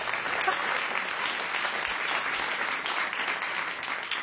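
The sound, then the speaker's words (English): Studio audience at an opera quiz show breaks into sustained applause. The clapping is dense and steady and keeps an even loudness throughout. “Is everybody ready down there? Let's hear a big hoop and holler for our first opera quiz.”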